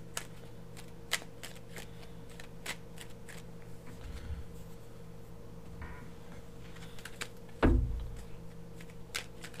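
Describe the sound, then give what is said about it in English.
A tarot deck being shuffled, heard as faint soft riffling with scattered light clicks and taps, plus one heavier thump near the end. “I'm going to go ahead and cleanse the cards.”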